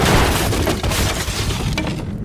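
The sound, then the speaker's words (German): Cannonballs smashing through the wooden hull of a sailing warship amid fire and smoke, a dense, loud, continuous roar of crashing, splintering and booming impacts that eases off at the very end. “Kanonenkugeln schmettern durch die Flanken deines Schiffes.”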